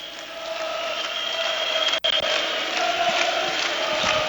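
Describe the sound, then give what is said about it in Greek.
Crowd noise from AEK basketball fans in an arena in Badalona, a dense, steady roar of many voices that holds level throughout, broken by one very brief dropout partway through. “Κάνε μία παύση να ακούσουμε τον κόσμο.”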